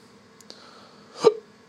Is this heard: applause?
no